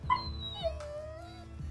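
A dog whimpering as a veterinary patient, a faint, thin, high whine that slides gradually downward in pitch, with soft breathy sounds around it.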